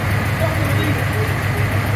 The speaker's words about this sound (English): And it's not even a horn. I love it's you. It's just a diesel engine.